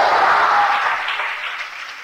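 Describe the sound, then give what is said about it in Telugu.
A church audience claps loudly at a preacher's urging, a thick wash of many hands that sounds strongest at the start and gradually eases off toward the end. “చప్పట్లు కొట్టండి గట్టిగా.”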